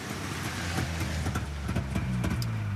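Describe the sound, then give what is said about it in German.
A car pulling up in front of a tank brigade's command post: a steady, low engine hum with a few soft knocks and slight shifts in tone, fairly loud and with no voices. “Endlich fuhr vor dem Gefechtsstand ein Wagen vor.”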